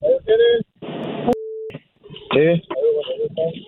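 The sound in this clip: A short, steady electronic telephone tone marks an incoming call being connected. It begins with a click, lasts well under half a second, and sits between stretches of people talking.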